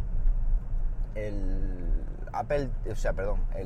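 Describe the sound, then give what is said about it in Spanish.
Low, steady car rumble while driving in busy morning traffic, a continuous hum beneath a person talking. “Disculpad, porque es que esta mañana está esto un poco revuelto, el tráfico, me despisto.”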